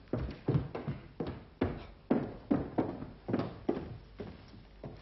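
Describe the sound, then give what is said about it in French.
Footsteps of someone bringing a chair, heard as a steady, evenly paced series of many fairly faint thuds and knocks on a hard floor, with no voices. “Je vais vous apporter une chaise.”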